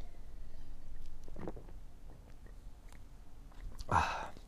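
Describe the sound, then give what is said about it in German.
A sip of sparkling wine (Sekt) is taken: light rustles and small mouth clicks lead to a brief, louder slurping sip near the end. “Ja, jetzt nehme ich erstmal wieder einen Schluck Sekt.”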